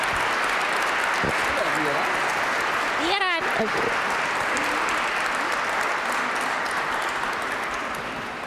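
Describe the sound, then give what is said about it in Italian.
Steady, dense applause for a choir soloist on stage at a choral event goes on throughout and eases slightly toward the end, while a voice speaks over it. “E facciamo un bel applauso anche a Viera, che poi il problema è stato questo, l'emozione.”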